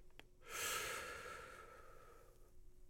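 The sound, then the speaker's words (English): A big breath: one long, airy breath that swells quickly and then slowly fades. Faint throughout. “A second big breath in.”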